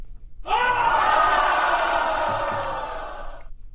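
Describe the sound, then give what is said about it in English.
A live studio audience cheering: one sustained burst of yelling and whooping that lasts about three seconds and then stops abruptly. “They were happy about cold piece. It's been a minute. Hey. All right, we got a live studio audience now.”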